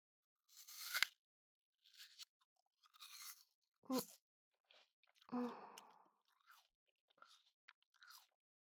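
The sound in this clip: Crunchy chewing of a bite of food, heard as several irregular bursts of crisp crunching and biting separated by short pauses, moderately faint and with no talk.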